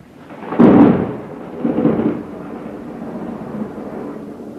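Thunder from a lightning strike: a loud, low rumble swells, eases, rolls again in a second weaker surge, then trails off into a steady, lingering low growl.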